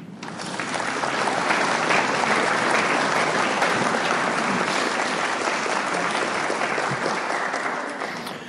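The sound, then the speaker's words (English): A round of applause at a recovery group meeting, clapping that swells quickly, holds thick and steady for several seconds, then tapers off at the end. “Let's give her another round of applause.”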